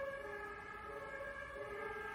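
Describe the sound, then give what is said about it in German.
Emergency vehicle sirens wail in a faint, steady layered tone with several held pitches, alone without voices. “Jetzt schon wieder diese Sirenen.”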